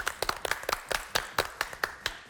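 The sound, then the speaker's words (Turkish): Sparse hand clapping from a TV quiz show studio audience: many sharp, distinct claps in an uneven rhythm from only a few pairs of hands, fairly faint, with no talk. “Tebrik ediyoruz efendim, sizi alkışlıyoruz.”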